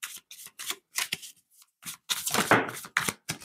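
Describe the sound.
Tarot cards being shuffled by hand: many quick, papery riffling bursts in an uneven rhythm, some louder and longer than others, with no talking.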